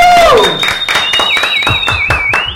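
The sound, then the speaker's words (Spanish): Applause welcoming a band on a live show: loud, brisk clapping from a small group runs throughout, with a sustained high whistle sounding over the claps. “Con un fuerte aplauso los recibimos.”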